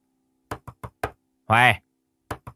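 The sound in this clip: Pounding on a wooden door: four sharp knocks in quick succession, then a brief raised voice, then a few more knocks at the end.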